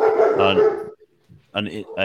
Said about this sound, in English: some dog is not happy.